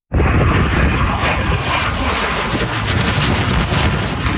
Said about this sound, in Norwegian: Det er tidligere denne uken et russisk MiG-29 jagerfly stryker lavt over bakken.